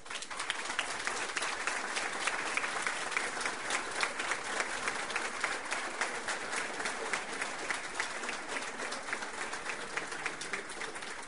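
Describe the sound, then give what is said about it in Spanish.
An audience applauds at a ceremony appointing a Minister of Labour and Social Security. Many hands clap in a steady, sustained round that holds an even level for about eleven seconds with no speech over it. “Fuerte el aplauso.”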